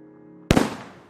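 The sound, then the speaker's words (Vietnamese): Fireworks exploding at midnight over a rural riverside district during spring festivities: one sudden, loud bang breaks a quiet, humming background, then trails off in a crackling, rumbling decay. “Đúng 12 giờ đêm, pháo hoa trên huyện bắt đầu nổ vang trời, lấp lánh cả một vùng sông nước.”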